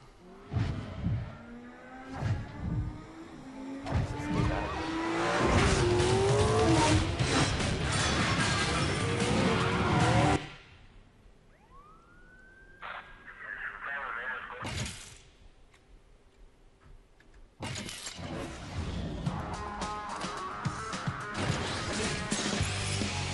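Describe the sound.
Crashes and mechanical clatter from a Need for Speed Most Wanted racing video game trailer: loud, dense bursts of impacts and machinery, then a quieter, sparser stretch midway before the noise swells again, with voices speaking over parts of it.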